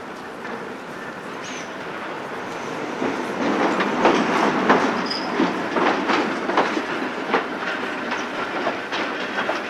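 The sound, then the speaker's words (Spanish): A train rumbles at a station platform on the service to Medina del Campo. Wheels click and clatter over the rails, growing louder midway and then holding a rolling, rattling roar with faint metallic squeals. “Próximo tren con destino Medina del Campo, situado en vía 3. Próximo a efectuar su salida.”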